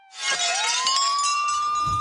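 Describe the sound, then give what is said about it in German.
Glass breaking as a window pane is smashed in a house, a sudden bright crash followed by sustained high ringing tones that hang for about two seconds, with no voices. “Oh nein, ich muss raus aus diesem Haus. Ich schlage diese Scheibe ein.”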